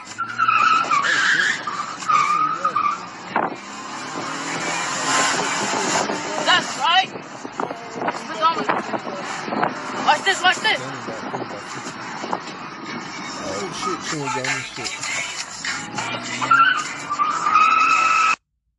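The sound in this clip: A car is driven fast by a young boy on the streets of L.A., with tyres skidding and engine noise in a dense, continuous roar, while people talk over it.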